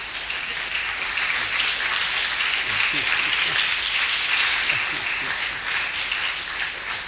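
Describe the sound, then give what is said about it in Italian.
An audience applauds a speaker with warm, dense clapping that stays steady and fairly loud throughout, while a few voices murmur faintly underneath. “grazie, veramente risponde al mio cuore questo applauso.”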